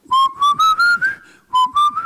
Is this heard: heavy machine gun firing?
no